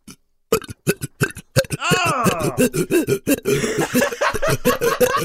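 A person burps repeatedly in short guttural bursts, with one long, drawn-out groaning burp in the middle and more rapid belches after it.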